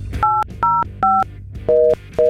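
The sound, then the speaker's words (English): Touch-tone telephone keypad dialing to reach an outside line: five crisp, steady electronic tones in an uneven rhythm over a low, constant hum. “Do I have to dial anything to get out? No, I got it.”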